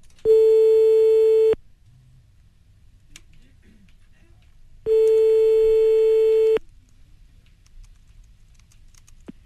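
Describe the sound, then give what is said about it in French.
A phone line's ringing tone sounds as a host calls a listener: two loud, steady, pure-pitched tones of about a second and a half each, separated by a long silent gap. “Radio Chatas, on appelle le premier ce soir”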